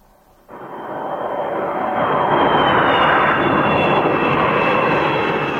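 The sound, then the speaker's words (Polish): A private jet flies overhead above Glasgow, Scotland. Its roar starts abruptly after a brief quiet moment and swells into a loud, steady, broad rushing drone with a faint high whine on top. No voices are heard. “Od poniedziałku szkockie niebo nad Glasgow zapełniło się od prywatnych odrzutowców, powodując niemały korek w przestworzach.”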